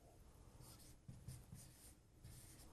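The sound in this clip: Faint handwriting of the words French fries with a capital F, heard as quiet scratchy pen strokes in short uneven bursts, with no voices.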